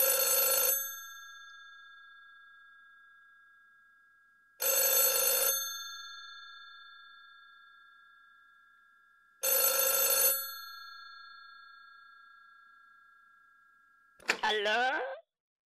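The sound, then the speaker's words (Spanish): A telephone rings with three loud, bright trilling bursts, each about a second long with a fading tail, separated by long even pauses; a short different sound cuts in at the end. “Adelante, llamada telefónica.”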